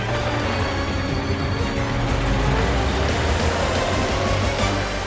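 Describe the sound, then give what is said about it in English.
A car drives through town streets with loud, steady engine and road rumble, a low hum held under the noise throughout. “Carl drives through the streets to the candy shop.”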